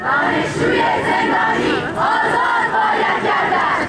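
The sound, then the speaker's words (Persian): University students chant protest slogans at a Student Day event during an appearance by the judiciary head. Loud massed voices call out in a steady rhythm of short repeated phrases that rise and dip in regular pulses. “گروهی از دانشجویان در کنار شعارهایی به حضور آقای رئیسی هم اعتراض کردند.”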